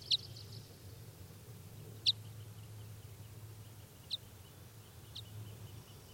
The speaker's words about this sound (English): decoys just got excited here. But no sign of any wild birds, and that's 395 giving flight calls.